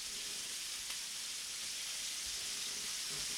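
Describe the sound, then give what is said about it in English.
Bacon sizzles on a griddle, a steady bright hiss that holds evenly without pauses or talk. “Oh yeah, that's some good audio right there. Fresh set of bacon on the griddle.”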